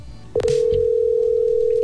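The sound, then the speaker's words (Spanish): A telephone call being placed to a prize winner: a click, then a single steady, unbroken tone that holds loudly to the end. “Vamos a llamar la persona.”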